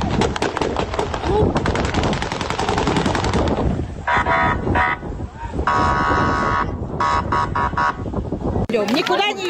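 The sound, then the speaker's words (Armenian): Gunshots fired into the air by police breaking up a street protest against military mobilization in Russia: many sharp, rapid shots ring out amid loud, dense crowd noise and voices. “Իրավապահները մարդկանց ցրելու համար նույնիսկ օդ են կրակել։”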